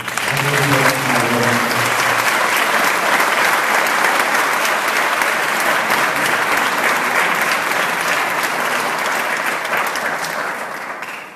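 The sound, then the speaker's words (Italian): Audience applause welcoming a guest to a talk, a loud, dense and sustained clapping that stays even for a long stretch and then eases at the end. A voice is heard briefly at the start. “L'ospite di questo incontro, e io accoglierei con un applauso,”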